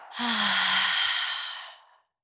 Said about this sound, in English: take a deep breath in through the nose. Exhaling out through the mouth.